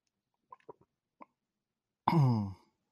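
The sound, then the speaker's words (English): A person takes a quick drink to clear a troubled throat: a few faint, soft swallowing gulps, then a short, louder voiced exhale. “Sorry, I'm like fighting something and keeps coming into my throat. Take a drink real quick.”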